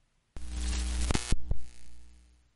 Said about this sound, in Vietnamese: Ánh đèn trong quán bỗng nhiên chớp tắt, vang lên những tiếng chập điện rè rè.